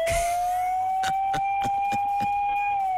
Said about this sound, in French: Mets la sirène. Ah, la sirène.